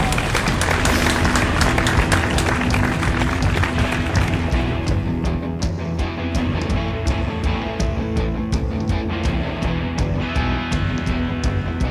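Loud audience applause and cheering welcome a guest, a presidential candidate, onto a show; dense, continuous clapping holds steady throughout without easing off.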